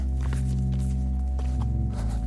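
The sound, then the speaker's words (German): Soft footsteps on a foggy stretch of the Way of St. James pilgrim trail: a few faint, irregular steps over a loud, steady low drone. “Ich halte mich hier an den Weg, setze einen Fuß vor den anderen und gucke, wo es lang geht.”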